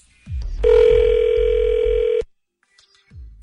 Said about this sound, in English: Let me put you through to voicemail. So hang on one second.